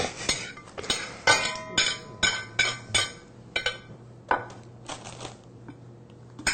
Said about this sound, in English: See how I cut that? It's a little variation. You want to add a variation to your foods.